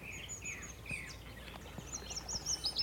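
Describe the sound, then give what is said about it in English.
A willow warbler sings from the end of a branch, its high, cascading phrases coming in faint bursts of thin chirps that grow busier toward the end. “A willow warbler. Here he is, just on the end of this branch here.”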